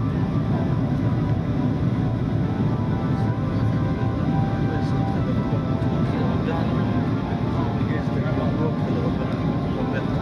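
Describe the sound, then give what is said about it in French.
Steady roar of an airplane cabin as the plane nears landing at Chongqing, a constant broad rumble that holds evenly through the whole clip with faint voices beneath it. “C'est clair, ils ont tout travaillé et là on va bientôt atterrir à Chongqing.”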